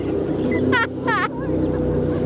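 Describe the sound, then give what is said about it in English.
Jet boat engine roaring as a safari jet boat on the Dart River spins a full 360 degrees to stop, a loud steady drone throughout with two short, high, wavering bursts riding over it. “Sorry about getting you wet, guys, but the Hamilton spin I just did is my brakes in a jet boat.”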